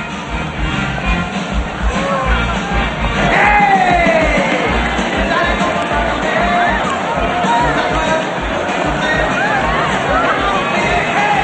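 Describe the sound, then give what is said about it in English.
A large, loud crowd drinking and dancing in the street keeps up a continuous babble of voices, with shouts and whoops rising out of it now and then. “Ahead of her is a large crowd of people drinking and dancing in the street.”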